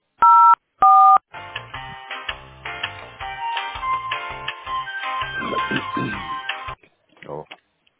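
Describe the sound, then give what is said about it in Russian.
Two telephone keypad tones dial an extension on a company's automated phone line: short, steady, loud beeps with a brief gap between them, followed by continuous talking. “Если вы знаете внутренний номер сотрудника, наберите.”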